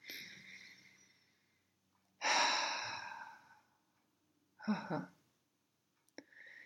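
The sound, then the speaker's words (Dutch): Deep, slow breathing in and out, several long, airy breaths separated by quiet pauses, the second one loudest and longest. “En adem dan nog een keer diep in en uit.”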